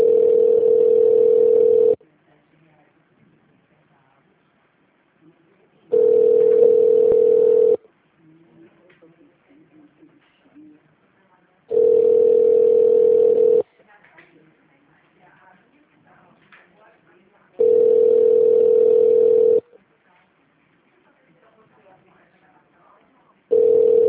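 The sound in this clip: A telephone ringback tone sounds while a call is connecting: a steady single-pitch tone in roughly two-second bursts separated by longer pauses, with four full rings and the start of a fifth, and faint sounds in the gaps.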